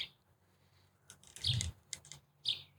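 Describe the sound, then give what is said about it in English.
Birds chirping outdoors: a few scattered, fairly faint high tweets and chirps with no one talking. “I love hearing the birds chirping.”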